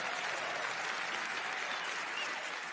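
An audience at an awards show applauds to welcome the hosts. Dense, steady clapping stays loud and sustained throughout with no talk over it.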